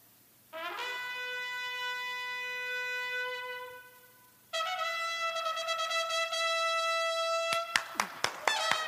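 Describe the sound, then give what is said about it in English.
Shofar blasts: one long sustained horn note, a pause, then a second held blast with a wavering, pulsing tone that breaks into a rapid run of short staccato bursts at the end. “The shofar would not be one long funeral dirge. It would be kind of staccato, kind of. So the shofar may sound something like this.”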